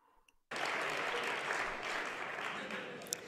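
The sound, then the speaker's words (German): Applause bursts in abruptly after a short near-silent moment, then continues as a dense, even roar of clapping until the end, with one sharp click near the close. “Gib mir Applaus.”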